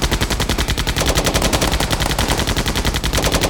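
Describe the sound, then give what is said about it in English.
Rapid automatic fire from a tank's many armored machine guns: a loud, unbroken rattle of many shots in a fast, steady rhythm, with no voices. “shooting at all the Bloodback positions from behind, and left and right the raiders were shot from the tank's many armored machine guns.”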